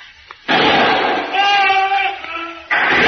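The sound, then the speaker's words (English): A gunshot is fired at a target near a palm tree in a wartime scene: a sudden loud blast with a sustained noisy tail, then a second sharp burst near the end. “Get behind me now. I'll take a pot shot at it.”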